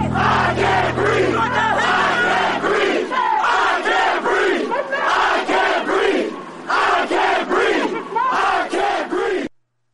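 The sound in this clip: A large protest crowd at a rally during nationwide protests chants in loud, rhythmic bursts of shouting voices. The bursts repeat steadily with short gaps before the chanting cuts off.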